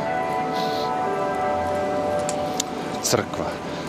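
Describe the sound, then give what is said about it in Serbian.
Bells ring with faint, sustained tones beneath ongoing conversation. “Da, čujete. Zvona, zvona.”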